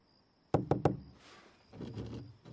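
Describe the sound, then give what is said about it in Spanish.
Three quick, sharp knocks on a door, then softer scratching and scraping against it, quiet, with no voices. “Rasca la puerta.”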